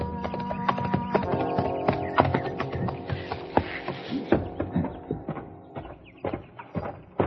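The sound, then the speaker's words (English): Horse hooves clip-clop as a rider arrives at a ranch house near sundown, with many sharp hoof strikes in a loose, uneven rhythm throughout. “It was near sundown when I rode up to the Barton ranch house.”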